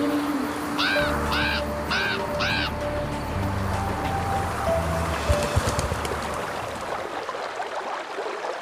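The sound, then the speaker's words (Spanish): A crow caws four times in quick succession, harsh, rasping calls standing out over steady background noise that continues after the calls end. “Comenzó a graznar y salió volando.”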